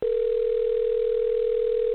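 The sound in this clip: A steady telephone line tone sounds during a call: one unbroken, pure mid-pitched hum held at even loudness for the full two seconds, with no voices.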